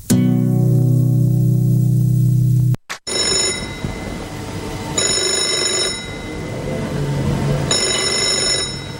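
A telephone rings in repeated bursts of bright, high ringing after a few seconds of music, with softer sound continuing beneath the rings.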